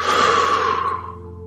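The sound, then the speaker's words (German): A deep breath during a guided relaxation exercise: one long, breathy exhalation that starts fairly loud and slowly fades over about a second and a half, with no talk. “Und schließ die Augen und atme mal tief durch die Nase ein und durch den Mund wieder aus.”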